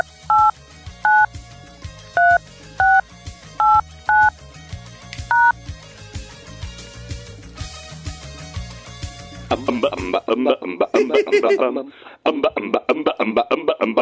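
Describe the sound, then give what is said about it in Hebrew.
Touch-tone keypad beeps as a company's phone line is dialed: several short, crisp two-tone beeps in an uneven rhythm over a steady low background, followed later by a longer stretch of louder, busier sound. “אין, אנחנו מחייגים”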